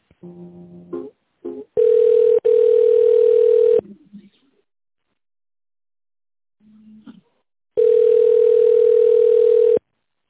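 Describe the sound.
A telephone line tone plays while an office call is transferred. A few short tones of different pitch come first, then two long, loud, steady single-pitch tones of about two seconds each, separated by a few seconds of near silence.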